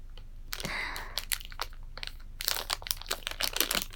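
Plastic packaging being opened: faint, irregular crinkling and crackling, with a few sharper rustling bursts and no talk.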